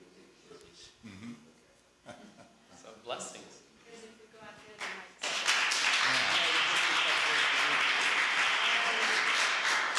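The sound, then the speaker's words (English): Mild audience applause rises suddenly about halfway through and holds steady and dense until the end, after a stretch of one person talking. “Well, thank you very much for that mild applause in advance of you don't know what”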